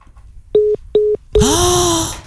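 Telephone being dialed: three short, equal-pitched electronic beeps in quick succession, then a longer, brighter and noisier tone that holds steady before fading.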